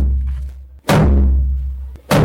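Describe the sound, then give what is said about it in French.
Three drum beats opening the Bianou cultural festival in Agadez: deep, booming strikes spaced about a second apart, each ringing out and fading slowly before the next. “C'est avec ces trois coups de tambour que le chef du groupe Ouest a donné le coup d'envoi de ce grand événement culturel typiquement agadésien.”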